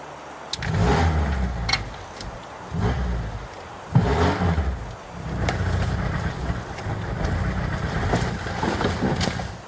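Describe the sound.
A blue Moskvich car's engine revs in loud, rough surges. Short bursts of revving give way to a longer, sustained roar.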